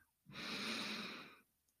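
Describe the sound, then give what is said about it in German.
A single slow inhale through the nose during a guided deep-breathing exercise: a soft, steady, airy rush lasting about a second, alone in quiet. “Einatmen durch deine Nase.”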